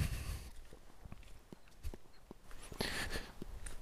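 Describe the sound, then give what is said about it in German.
Footsteps walking at night along a forest ridge in the Schwarze Berge, a series of irregular, soft crunching steps over a steady background hiss. “Ja, jetzt, jetzt laufe ich hier gefühlt so auf so einem Kamm.”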